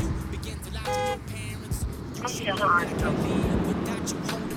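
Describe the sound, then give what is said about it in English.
A car horn honks in a library parking lot: a short, steady, buzzy blast rising out of the background, while people talk nearby. “We're honking. Honk again. There's not a car in the Mustang Library parking lot. No, we're right in the parking lot, right next to the book drop. Honk your horn again.”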